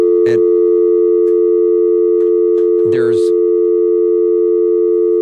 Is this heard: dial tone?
yes